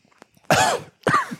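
Coughing after cigar cap dust went down the throat: two harsh, loud coughing bursts in quick succession, each rough and breathy, with no talk in between.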